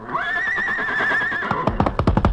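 A horse whinnies in one long, loud, wavering call, then a quick run of short, sharp hoof-like knocks follows; no voices.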